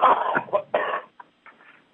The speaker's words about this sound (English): Excuse me. I'm coughing again.